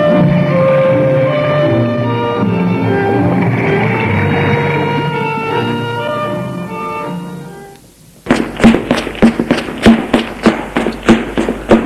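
Loud knocking struck with heavy blows. About eight seconds of sustained tonal, music-like sound come first, then a rapid, steady series of forceful knocks runs to the end.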